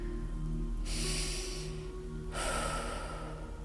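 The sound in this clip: Deep breathing during a relaxation exercise: two long, airy rushes of breath, each about a second long, heard alone over a steady low hum.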